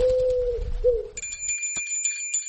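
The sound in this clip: A small bell tied to a pigeon's leg rings with a bright, high, sustained jingle and a few light strikes. It follows a low, steady coo-like tone at the start.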